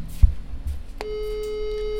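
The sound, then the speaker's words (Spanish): Telephone busy signal heard while calling someone: after a low thump, a steady electronic tone switches on halfway through and holds to the end over faint background noise. “Ahí lo estamos llamando, a ver si nos atiende.”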